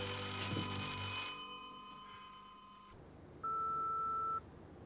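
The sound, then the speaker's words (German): A telephone rings at night in a house, a single steady electronic tone lasting about a second. “Kommt das öfters vor? Was? Dass hier nachts angerufen wird.”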